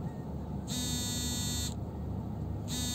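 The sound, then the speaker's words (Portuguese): A mobile phone buzzes with an incoming call, giving two loud, high, rasping vibration bursts of about a second each with a gap between, the second cut short, over a low steady hum. “Gente, não, nunca me ligaram. Estão me ligando.”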